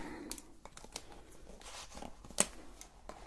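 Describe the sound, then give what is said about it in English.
Paper rustles and scratches faintly as a note is written by hand during an ASMR cranial nerve examination roleplay. A few sharper crinkles stand out, and there are no voices. “so I'll be noting everything down on the paper for now.”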